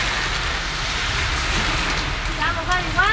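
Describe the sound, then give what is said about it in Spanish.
Heavy rain pours down outdoors along the coast of Viña del Mar and Valparaíso, a dense, steady hiss of water that stays even and unbroken from start to finish. “Se largó a llover con fuerza, al menos en Viña y Valparaíso, borde costero. Ahí está, ese es el sonido de la lluvia.”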